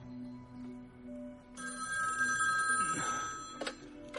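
A home telephone rings in a radio drama. A steady tonal ring with a warbling, buzzy edge starts partway through over a low background hum and continues for a few seconds.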